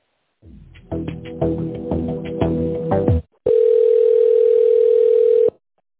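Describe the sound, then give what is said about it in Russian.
Telephone line tone while a call is being transferred to a specialist: a few seconds of melodic, chiming tones, a short gap, then a steady, unbroken mid-pitched tone lasting about two seconds. “Минуту, я сейчас соединю вас со специалистом”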